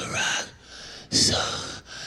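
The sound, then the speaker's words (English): A man's voice imitates the gasping last breaths of a dying Mickey from Rocky III: two drawn-out, raspy breaths with a short pause between them, the second sharper and louder. “He's on his last breath. He's like,”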